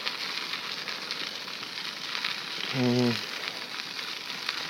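Food sizzling in a pan on a homemade wood-burning stove: a steady, even frying hiss throughout, with a brief low humming tone midway.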